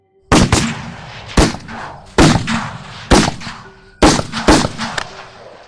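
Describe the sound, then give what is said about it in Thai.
Gunfire from shotguns loaded with silver bullets and from carbines, fired in a forest: a run of sharp, loud, irregularly spaced blasts, each with a booming tail, the last few coming in quicker succession. “ปืนทุกกระบอกที่อยู่ในมือของทุกคนทั้งปืนลูกซองที่บรรจุกระสุนเงินและปืนคาร์บินก็ระเบิดกระสุนออกลำกล้องอย่างพร้อมเพรียง”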